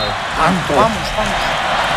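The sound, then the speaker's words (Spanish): Arena crowd chanting "España" at a tense match in New Jersey: a few drawn-out, massed voiced syllables swell briefly over a steady, loud wash of crowd roar, then settle back into the general din. “¿Qué grita el público? España grita. La grada de New Jersey.”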